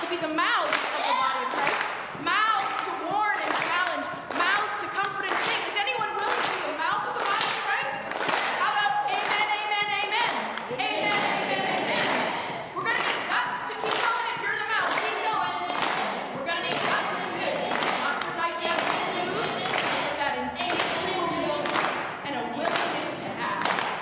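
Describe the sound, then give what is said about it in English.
A church audience claps together in a steady rhythm, many sharp handclaps repeating evenly and loudly without a break. “Is anyone willing to be the hands of Christ? Let's clap.”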